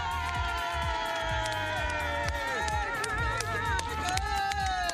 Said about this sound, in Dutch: ik tel tot drie en dan wil ik die bak herrie van het festival van jou daar horen.